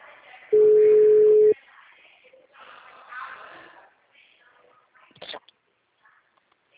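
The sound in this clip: A phone call rings out with a single steady, mid-pitched ringback tone lasting about a second, followed by faint, quiet line noise and a short click.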